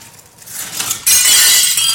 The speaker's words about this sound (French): Toutes les vitres sont brisées. Ah, ça, par exemple. Ah, oui, mais ce qui est le plus étonnant, c'est qu'elles ont volé en éclats après le coup de tonnerre.